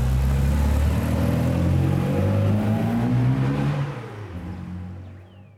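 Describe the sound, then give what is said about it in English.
A Mini Cooper engine accelerates on an evening drive, giving a steady, rumbling drone that holds strong at first, then drops in level and fades toward the end. “steps on the gas and takes a Mini Cooper for an evening spin.”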